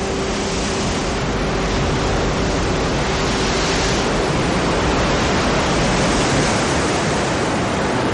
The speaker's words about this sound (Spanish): las olas de un mar embravecido chocan contra las rocas de la costa